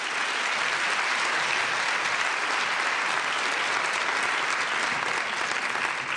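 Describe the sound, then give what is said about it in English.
An audience applauds steadily as speakers are welcomed to the stage: dense, even clapping that holds at a constant loud level throughout. “please put your hands together and welcome Jean Chatsky and Kathy Murphy”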